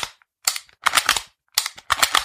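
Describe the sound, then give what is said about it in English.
An empty gun is dry-fired, giving a few bursts of sharp metallic clicks and clacks from the action in quick clusters separated by brief pauses. “So, all right, look. She's empty. I'm going to dry fire it.”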